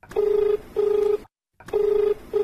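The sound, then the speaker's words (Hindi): Telephone ringing for an incoming call: a steady low tone in a double-ring pattern, two short rings, a brief silence, then two more rings, fairly loud and alone. “एक phone आई गलबा।”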